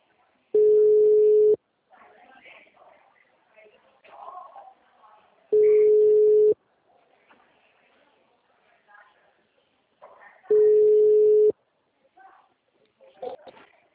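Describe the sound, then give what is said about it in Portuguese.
Ringback tone of an outgoing telephone call: three steady, evenly spaced tones, each about a second long with roughly four seconds of quiet between, and faint rustling and background sounds in the gaps. “Eu vou começar a ligar também.”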